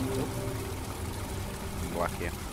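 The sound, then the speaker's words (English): Boiling water flows down steps in a steady, faint rushing and trickling wash that continues without a break. “Boiling water. Yeah, boiling water. It's literally boiling water, and the steam coming off it”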